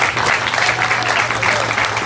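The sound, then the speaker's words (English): An audience gives a round of applause to the Lord during a talk: a loud, dense wash of clapping hands that holds steady throughout. “Now, you give the Lord a round of applause.”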